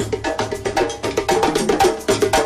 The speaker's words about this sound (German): Wir laufen jetzt mal an den Trommlern vorbei. Machen wir. Achtung, ihr hört's.